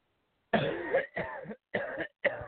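A man coughs in four harsh, hacking bursts with short pauses between them. The coughs are rough and chesty, clear and alone with no talk around them.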